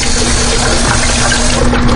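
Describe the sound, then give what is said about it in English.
Tap water runs to rinse out an empty bean can, a loud, steady hissing rush of flowing water with no pauses. “Just run some water over those. Wash out the can of beans at the same time.”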